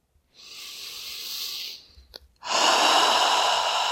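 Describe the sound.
A person breathes in deeply during a seated guided relaxation exercise: a steady, airy inhale of over a second, then a brief pause and a louder, rushing exhale, with no talk over it.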